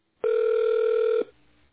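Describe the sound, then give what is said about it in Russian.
A telephone ringback tone plays while a call is transferred to an operator: one steady, clear electronic tone lasting about a second, then a faint low hum. “Пожалуйста, оставайтесь на линии. Ваш звонок будет переведен на оператора.”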